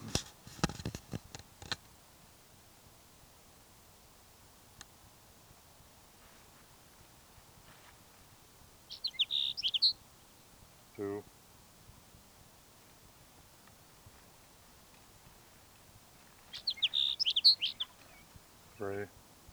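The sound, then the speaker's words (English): A Sage Sparrow sings two short, high, twittering songs separated by a long quiet stretch. Brief bursts of a speaking voice fall between and after them. “Sage Sparrow number 5.”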